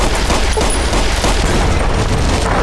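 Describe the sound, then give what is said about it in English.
Gunfire and an explosion from a weapon in a video game, the blast striking the top of a door frame: a loud, dense, continuous rattle of shots and booms that fills the whole clip. “Okay, other weapon. Other weapon. That exploded. It hit, like, the top of the door frame.”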